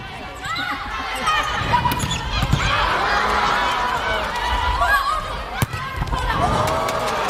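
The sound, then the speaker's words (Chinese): Ball strikes during a women's volleyball match between China and the Philippines, with China serving first. A few sharp hits cut through steady crowd noise and voices. “对手是菲律宾女排。好，这场比赛开始是由中国队来率先发球”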